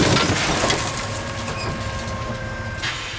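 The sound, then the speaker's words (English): Harsh crunching of metal panels and caterpillar treads thrown into a scrapyard crusher: a loud grinding burst at the start, then a steady mechanical drone with a tonal hum, and another crunching surge near the end. “Hundo in there, throwing her panels and treads into the crusher”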